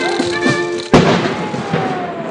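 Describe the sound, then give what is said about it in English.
Ceremonial cannon fire from a 19-gun salute by a guard of honour at Parliament Hill: one sudden, loud boom followed by a decaying rumble. “A marching band played as a guard of honour assembled and fired a 19-gun salute.”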